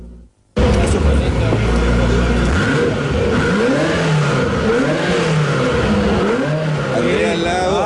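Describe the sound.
A Ferrari engine revs in neutral, its loud tone climbing and dropping in repeated sweeps after an abrupt start, while people talk over it.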